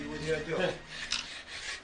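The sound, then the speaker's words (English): Rasping scrape of hand sanding, the abrasive rubbed back and forth in a few quick strokes, gritty and moderately loud. “Back to the sanding. To and fro, to and fro, to and fro, to and fro.”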